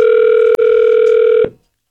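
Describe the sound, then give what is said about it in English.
A telephone tone as a call is placed: one steady, loud electronic note with a brief break near the start, cutting off after about one and a half seconds. “We'll see if we can get him on the phone here.”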